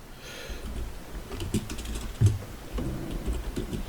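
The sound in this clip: Soft, irregular clatter of typing on a computer keyboard, with scattered taps and a few slightly sharper key strikes over a low background murmur, faint and with no clear speech.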